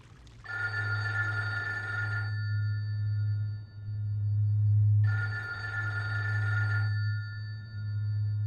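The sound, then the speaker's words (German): Telephone ringing in two long, steady electronic bursts separated by a few seconds of quiet, over a constant low hum. “geht ja schon wieder keiner ran. Ach, Telefon.”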